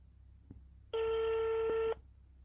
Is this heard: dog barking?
no